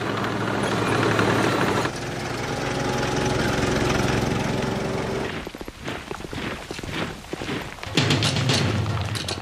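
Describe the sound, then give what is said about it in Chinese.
Engines of Sherman tanks driven by a Canadian armoured unit in wartime Italy, a loud, steady rumbling drone that turns choppy and uneven partway through, then surges back to a full roar. “先锋部队是驾驶谢尔曼坦克的加拿大坦克部队。”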